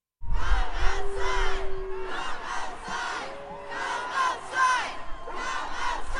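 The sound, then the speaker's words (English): Hundreds of families and advocates for children with autism chant outside, a loud, continuous crowd repeating a rhythmic phrase in waves of raised voices. “They are chanting, "Come outside."”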